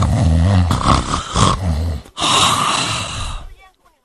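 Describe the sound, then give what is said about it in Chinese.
A storyteller imitates the loud snoring of a man who has drunk too much, making two long, rough, roaring snorts with a brief break between them. “可是杨林确实喝多了，这鼾声起来了。”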